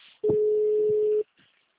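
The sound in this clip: A phone call being transferred sounds as a single loud, steady electronic tone that holds one even pitch for about a second. It sits between faint line noise before and after.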